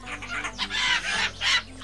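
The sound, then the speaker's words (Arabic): Squawking calls from a flock of parrots flying overhead: several harsh, bright bursts follow one another in quick succession, with no voices. “قطيع من الطيور تحلق فوق رؤوسنا. لا تخف يا يوسف، إنها ببغاوات وليست قطط طائرة، فهي تبحث عن غذائها.”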